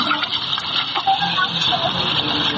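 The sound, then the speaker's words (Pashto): River water from the Kunar rushes into a ten-litre yellow jerrycan held in both hands, making a steady, hissing gush that holds even throughout. “لس کیلوی زیړه بوشکۍ په دواړو لاسونو کلک نیولې او د سیند لوبوې ډکوي.”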